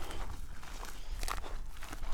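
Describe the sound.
Footsteps walking over open ground in a rural birding area in Portugal, a faint, steady series of soft crunching steps that continue throughout.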